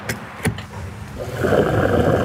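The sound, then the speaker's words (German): A fuel pump nozzle refuels a car. Two sharp clicks come first, then a steady rushing hiss of flowing fuel grows louder and holds evenly to the end. “Der Sound der Zapfpistole.”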